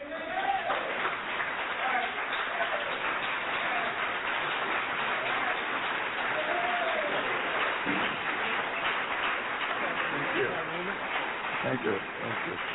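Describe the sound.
Audience applause welcoming a speaker, a dense steady roar of clapping that holds for many seconds, with voices calling out among the claps.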